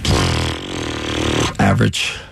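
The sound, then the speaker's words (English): A mouth fart from a basketball coach opening a press conference after his team lost game one: a long, loud, buzzy lip raspberry lasting over a second, followed by a few short voiced bursts. “It's never good when your coach starts his press conference with a mouth fart.”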